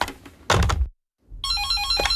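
An electronic telephone ringtone chimes in bright, repeating high tones, preceded by a couple of dull thumps and a brief moment of silence.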